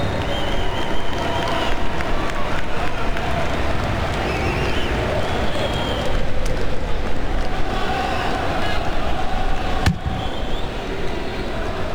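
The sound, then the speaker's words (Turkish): Football stadium crowd applauds as a player is substituted off, producing a dense, sustained wash of clapping and crowd roar that stays loud and even throughout. “Alkışlar eşliğinde kenara geldi Martin Ødegaard.”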